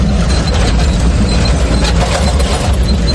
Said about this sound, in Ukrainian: Французький «Цезар» на 8 колесах виграбе звідусіль. «Цезар» поїхав на роботу, зараз піднімає куряву і несеться.